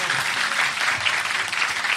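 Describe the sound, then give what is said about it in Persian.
A crowd claps hands at a religious celebration, a dense, steady and loud wash of applause throughout. “بزن کف تو دیگه، بگی بالا دست تو یا علی.”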